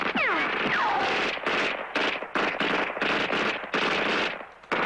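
Sustained automatic gunfire in a Spanish-dubbed 1982 action film, loud and dense, delivered as many rapid bursts separated by brief gaps, with a sharp whistling streak near the start.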